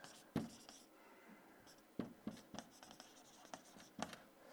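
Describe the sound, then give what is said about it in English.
A word being written on a board, with faint, scratchy strokes coming in several short bursts separated by brief pauses. “I'm going to write courage up there. Courage.”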